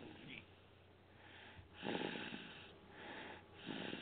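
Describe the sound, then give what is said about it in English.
A baby snoring, with soft, wheezy, snuffling breaths repeating in a slow rhythm, faint and low overall. “it's the sound of a snoring baby.”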